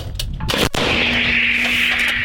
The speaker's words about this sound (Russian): Украинский расчет 155-миллиметровой американской гаубицы 777 ведет огонь по противнику.